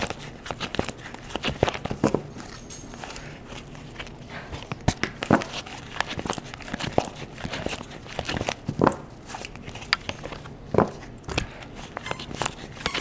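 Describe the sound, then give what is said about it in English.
Cards are pulled from a deck, giving many soft, irregular snaps, clicks and papery rustles throughout, fairly quiet and with no talking. “I'm just pulling a couple of cards if you don't have the video.”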